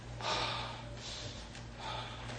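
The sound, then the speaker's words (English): Forceful breaths pushed in and out through the nose, demonstrating breathing through a chakra point: about three rushing, airy bursts with brief pauses between, over a low steady hum. “There's no breath coming here. You're breathing like this.”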